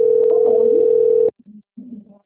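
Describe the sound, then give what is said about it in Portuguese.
Telephone tones while a number is keyed in: a loud, steady tone holds, then cuts off abruptly and is followed by a few short, quieter bursts. “Eu tô teclando pra ouvir quem que é.”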